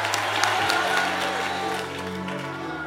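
A church audience claps its hands on the preacher's call, making a steady wash of many claps over a low hum that fades slightly toward the end.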